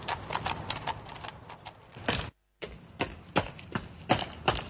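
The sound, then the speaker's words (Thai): Horse hooves clip-clop at a hurried gallop as a rider speeds toward a temple: many sharp, loud knocks in an uneven, driving rhythm, broken by one brief silent gap midway. “จึงรีบควบม้าผ่านเข้าไปยังเทวาลัยนั้น”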